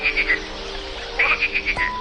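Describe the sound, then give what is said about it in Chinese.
A frog croaks in two bouts: first a short rattling trill of a few rapid pulses, then after a pause a longer run of about six pulses, with a faint steady tone entering at the very end. “身后又传来两声青蛙的叫声之后便没有了声音。”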